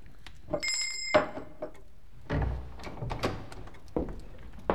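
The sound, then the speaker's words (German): A small bell rings briefly to summon a servant, giving a bright metallic ring that stops short. A few dull clunks and knocks follow, with no talk. “Monsieur, haben geläutet.”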